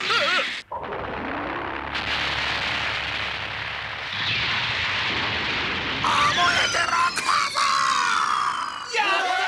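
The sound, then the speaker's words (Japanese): A continuous, loud, rumbling explosion roars through an animated scene while people shout to flee, with screaming voices over the dense noise. “うわあ、みんな逃げろ、爆発するぞ。 爆発、動け動け”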